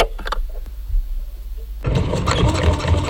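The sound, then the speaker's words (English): A sewing machine starts after a few faint clicks, then runs with a dense, steady, rapid mechanical whirr and chatter that continues to the end. “I so regret making the stupid decision to buy a sewing machine.”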